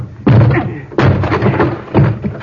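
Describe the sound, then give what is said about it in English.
A door being broken down: three heavy, booming thuds spaced about a second apart, each blow trailing into a rumbling, rattling decay, loud and with no talk. “I'll have to break this door down”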